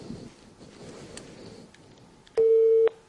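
Telephone busy tone after a call drops: faint, quiet line hiss, then a single loud, steady mid-pitched tone lasting about half a second near the end.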